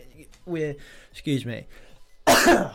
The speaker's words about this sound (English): sorry about that. That was coming for a while. I was thinking, when am I going to cough? I can feel it building up.